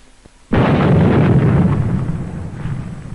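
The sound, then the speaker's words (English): Dynamite blasting by Navy demolition teams clearing 50-foot ridges: one abrupt, heavy boom followed by a dense, loud roaring rumble that slowly fades over a few seconds. “The call goes out for dynamite crews, Navy's trained demolition teams, seasoned on enemy beaches. They must blast the 50-foot ridges, clear the way to meet the expedition timetable.”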